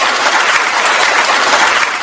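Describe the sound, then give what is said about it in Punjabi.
Applause for a morning quiz winner: a dense, steady wash of many hands clapping at even loudness for about two seconds, with no voices over it. “ਵਾਹ ਜੀ ਵਾਹ, ਬਹੁਤ ਵਧੀਆ, ਤੇ ਤੁਹਾਡੇ ਲਈ ਅਸੀਂ ਦੁਬਾਰਾ ਤਾੜੀਆਂ ਵਜਾਵਾਂਗੇ।”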